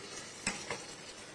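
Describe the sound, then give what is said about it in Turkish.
A ladle stirs chicken, onion, carrot and green beans in a pot, giving two quick, faint scraping clinks over a soft, low hiss. “Alıyoruz kepçemizi, bakın. Şu anda tavuğumuzu koyduk, soğanımızı, havucumuzu, yeşil iç baklamızı.”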